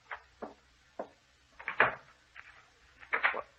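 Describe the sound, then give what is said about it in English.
A door being locked, heard as a series of sharp clicks and dull wooden clunks of varying loudness, spaced unevenly, with a denser cluster of knocks in the middle and again near the end. “He's locking the door again. He's locking us in.”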